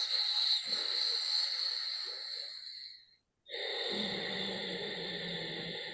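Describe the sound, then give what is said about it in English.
Slow, smooth breathing during a calming relaxation exercise, two long airy breaths with a steady ocean-like hiss, split by a brief silent pause. “A smooth sound like the sound of the ocean. A few more breaths like this.”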